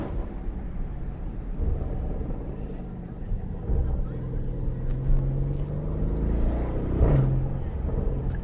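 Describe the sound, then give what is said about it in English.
A 2025 Porsche Cayenne GTS, with a twin-turbo 4-litre V8 and sports exhaust, burbles deeply while being driven with the windows down. The low, steady rumble swells slightly at times. “Well, that is the noise of a 4-litre V8 twin turbo burbling away.”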